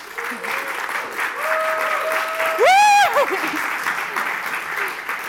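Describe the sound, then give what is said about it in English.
Audience applause welcoming a speaker at the EAGxCambridge 2023 conference: continuous, even clapping from a crowd throughout, with a brief rising cheer partway through. “Everyone, please give it up for Judith Rensing.”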